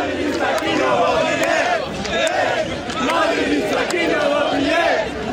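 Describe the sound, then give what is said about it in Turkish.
Barcelona fans pour into the streets to celebrate a championship won with a victory over Real Madrid. A loud, continuous crowd chants and shouts in rhythmic swells, with sharp bursts cutting through the roar. “şampiyonluğu yaşayan Barcelona taraftarları sokaklara döküldü. Taraftarlar uzun süre evlerine gitmeyerek Real Madrid zaferiyle gelen şampiyonluğu kutladı.”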